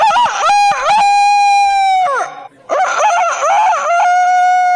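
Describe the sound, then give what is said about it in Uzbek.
A rooster that tends a flock of hens crows twice in loud, long, drawn-out calls. The strained, ringing pitch holds steady and then trails off, with a brief pause between the two crows. “Mana ertalab soat 5 dan to'q qorong'i tushgunga qadar tinim nimaligini bilmaydigan 40 ta, beshara yozli saratonda esa 70 ta tovuqqa o'z xizmatini ayamaydigan xoroz ovozi.”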